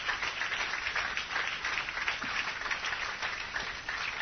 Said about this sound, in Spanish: then give him a clap offering right entonces now. Vamos a darle un and aplauso.